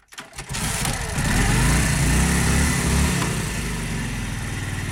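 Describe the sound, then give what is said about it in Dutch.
An old 1942 Harley-Davidson motorcycle arrives, its engine surging up after a brief quiet start into a loud, low, throbbing rumble that holds steady. “arriveert op een oude motor, een Harley Davidson uit 1942”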